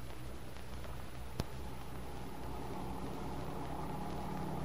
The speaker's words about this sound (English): Don't you trust yourself in my jalopy? It may look a little tired, but it runs all right.